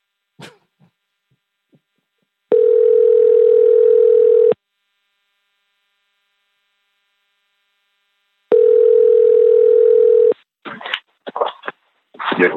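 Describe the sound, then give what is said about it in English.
A phone rings with two long, steady electronic tones, each about two seconds, separated by several seconds of silence. A few short voice-like bursts follow at the end. “You calling me? That's my phone ringing.”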